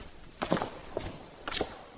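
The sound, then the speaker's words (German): A few faint footsteps climb a narrow, steep spiral staircase in the church library of the Walburgiskerk in Zutphen. The steps come in separate soft scuffs with quiet pauses between them. “Wir gehen durch die schmale, steile Wendeltreppe hinauf bis zum Gelehrtenzimmer.”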